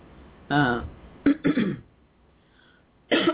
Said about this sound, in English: excuse me. I've got something in my throat here.